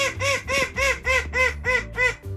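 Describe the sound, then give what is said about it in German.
Small call duck (dwarf duck) in a garden quacking seven times in a steady rhythm, each quack a nasal, bright, evenly spaced call, with no voices. “Unser letzter großer Star ist eine süße kleine Zwergente.”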